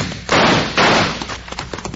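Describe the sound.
Gunshots in a Western-style radio drama: two loud, broad bursts land about half a second apart, each with a short decaying tail over a noisy background.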